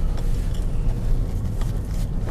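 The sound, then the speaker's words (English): Steady interior road noise from a car driving home in the afternoon through light traffic in Palm Coast: a dense, even low rumble with a faint hiss above it, continuous and without talk. “It's about 2 in the afternoon, and I'm actually driving home rather than to the office.”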